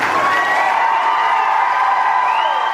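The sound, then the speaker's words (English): A crowd at a livestock auction cheers and whoops after a hog is sold, a loud, continuous swell of many voices holding steady throughout. “The way they cheered at the end, you knew they were only bidding on this hog.”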